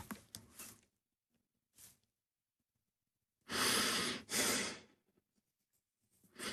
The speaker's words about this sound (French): Je t'entends respirer.